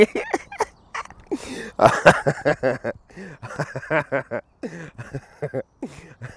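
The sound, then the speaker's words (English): Ducks squabble on a pond, one trying to push another under. They make many rapid, harsh, throaty calls in choppy bursts, some loud and some fainter, with no talking over them. “I think there's a duck trying to drown another duck in the fucking pond.”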